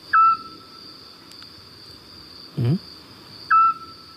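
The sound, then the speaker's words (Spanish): A Eurasian scops owl calling at night gives two short, clear, whistled notes a few seconds apart over a steady high-pitched background drone. “Este sigue un autillo. Qué bonito, ¿eh? Qué bonito canta, además, ¿no?”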